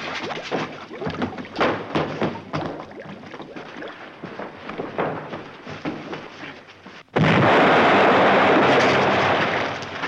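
A radio-drama explosion effect bursts in suddenly after several seconds of lower, uneven rumbling noise, then holds as a loud, dense roar for about three seconds before easing slightly.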